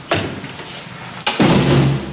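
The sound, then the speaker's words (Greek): A repaired apartment door, in a building cracked by nearby metro works, is pushed and fails to close: two dull knocks of wood, one short and the second heavier and rattling slightly before fading. “Αυτή είναι η επισκευασμένη πόρτα.”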